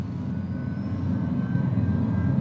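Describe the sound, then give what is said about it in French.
A steady low rumble fills an airliner cabin as the plane approaches San Francisco airport to land. The dull engine drone holds even throughout, with no talk. “Mesdames et Messieurs, nous allons bientôt atterrir sur l'aéroport de San Francisco. Nous vous prions d'attacher vos ceintures et de ne plus fumer.”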